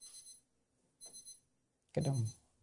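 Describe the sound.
Faint electronic beeping of a clock alarm: three short, high-pitched bursts about a second apart. A voice starts speaking during the last burst.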